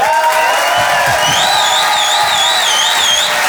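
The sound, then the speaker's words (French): Audience cheering and applauding as a performer is welcomed onstage at a live comedy show: a dense, steady roar of clapping and shouts throughout, with a few shrill, wavering whistles rising above the crowd. “Je vous demande de faire un maximum de bruit. Une ovation s'il vous plaît pour Selig.”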